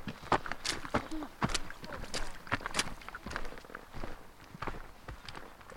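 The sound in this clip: Footsteps of people out on a long walk, many short, sharp steps falling at an even walking pace, fairly quiet and steady throughout.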